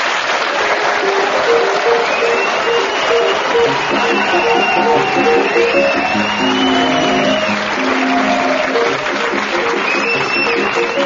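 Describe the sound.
Chopin's Minute Waltz plays on piano as the theme of a panel game show, its notes running beneath steady studio applause while a voice talks over the mix.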